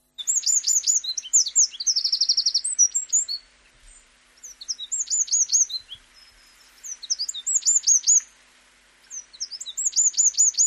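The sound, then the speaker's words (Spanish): Birdsong: a small bird sings several phrases of high, rapid chirps and trills, each burst separated by short pauses, clear and fairly loud with no voices. “Simplemente te voy a poner tres cantos de pájaro.”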